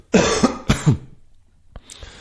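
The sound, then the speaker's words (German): Throat clearing: two harsh, rasping bursts close together, the second broken into a double pulse, followed by a few faint clicks and quiet. “ich habe es von einer sehr schlauen Person gelernt, dass Räuspern etwas vom Schlechtesten ist, was für die Stimme was kannst machen.”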